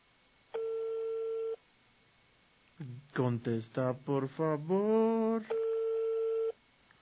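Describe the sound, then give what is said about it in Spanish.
A telephone ringback tone sounds while calling someone: a steady one-second ring, then a voice speaking, then a second ring of the same tone. “Vamos a ver si nos contesta nuestro amigo Wilito.”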